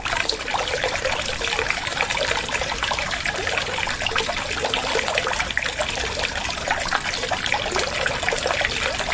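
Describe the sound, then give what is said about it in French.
Water flowing from the Griffon fountain in the town of Mende, a steady, full splashing and trickling stream that holds an even level throughout with no voices. “Et on a choisi de s'arrêter ici parce que la fontaine du Griffon est l'une des plus importantes et les plus utiles de la ville de Mende.”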